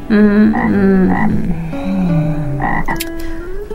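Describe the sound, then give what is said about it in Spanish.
Croaking of a toad: several loud, drawn-out croaks with rich tonal harmonics and a voice-like quality, some sliding in pitch, running one after another without pauses. “Y se fue, saltando el sapo.”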